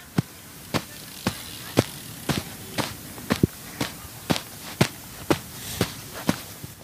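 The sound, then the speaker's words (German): Heavy footsteps stomping through the sand of a long-jump pit on heavy, water-soaked legs: many dull, muffled thuds in a steady, even rhythm of about two steps per second, heard alone. “wir stehen neben einer Waldsprunggrube. Ja. Du bist gerade mit deinen dicken, voll Wasser gelaufenen Beinen durchs Sand gestapft.”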